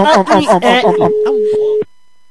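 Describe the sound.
A steady single-pitch telephone tone, as a call is dialed and rings, sounds for about a second under the end of fast talk, then holds alone and stops abruptly.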